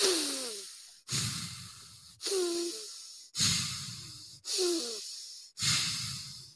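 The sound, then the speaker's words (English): Deep warrior's breath drawn in and out through the nose from the belly, a steady series of six heavy, rushing breaths at an even rhythm, each rising sharply and fading before the next. “It's a warrior's breath. In and out through the nose, all right? Leave the neck and shoulders alone. Breathe from the belly, from the diaphragm, where we're supposed to breathe, right? And it'll sound like this.”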